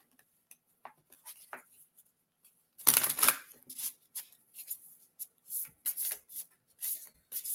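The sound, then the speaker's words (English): Half a deck of reading cards spills out in a sudden dense burst of rustling, followed by many soft, short taps and slides as the cards are gathered and put back in. “that was just like half the deck that just fell out. Putting them back in there.”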